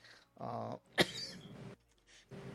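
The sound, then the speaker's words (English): One sharp, abrupt cough from a person stands out between brief stretches of quiet speech, followed by a softer trailing rasp. “excuse me, I'm still trying to figure out why I'm coughing.”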